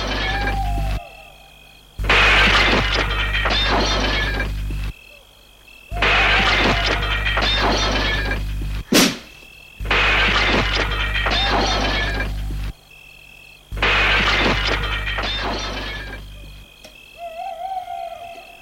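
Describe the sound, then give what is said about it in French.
A glass window pane is smashed with a 500-gram copper mallet to break in, a single sharp crash standing out against a steady, droning backdrop of hooting and insect-like buzzing. “monte à l'échelle et, pour entrer, brise le verre avec une masse en cuivre de 500 grammes.”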